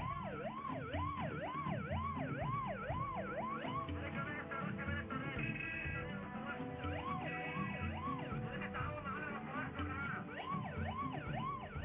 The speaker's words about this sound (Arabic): خلينا نشوف عربية اسعاف في الشارع المحاولات ان هي في الشارع المصري ان هي تعدي وتوصل بالمريض